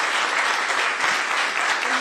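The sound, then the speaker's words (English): An audience at a church talk applauds to thank an interpreter. The clapping is dense and steady, forming a continuous wash of many hands at an even level from start to finish. “She need your clap, okay, for say thank you.”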